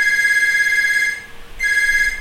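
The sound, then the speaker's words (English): A telephone rings with a steady electronic ring tone in two bursts separated by a short pause, heard alone without talk. “We're going to pause. There's a phone call. We only get phone calls when we're podcasting.”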